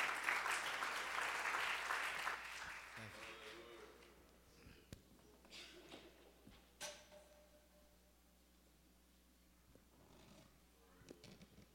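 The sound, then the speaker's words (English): A church audience applauds to welcome a guest pastor. The clapping is soft and dense at first, fades away after a few seconds and leaves near silence broken by a few faint knocks. “Put your hands together and give him a warm welcome.”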